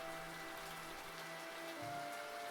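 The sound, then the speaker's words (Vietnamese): Steady heavy rain pouring down at night, a continuous soft hiss that holds faint and even throughout with no voices. “Trời càng về đêm lại càng mưa tầm tã, mưa như chút nước.”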